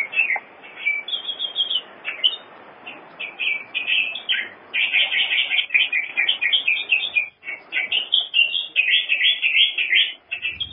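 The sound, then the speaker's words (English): Bird song of a Nauruan canary: a bright, high warbling of varied chirps and trills, repeated in many quick phrases with brief pauses, carrying on steadily and fairly loud throughout. “This is the call of the Nauruan canary opening this morning's transmission on FM 105.”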